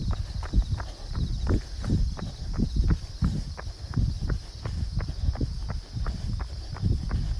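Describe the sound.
Horse jogging on a walk outdoors, its hooves clip-clopping in a steady, even rhythm of many quick beats that carry on throughout.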